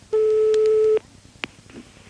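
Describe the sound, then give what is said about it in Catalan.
An answering machine beep: one steady, pure, mid-pitched tone lasting just under a second, then a brief sharp click and quiet line noise. “Però si vol deixar el seu missatge, faci-ho després del senyal.”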